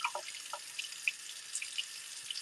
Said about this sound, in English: I'm not pissing. I'm just opening the sink.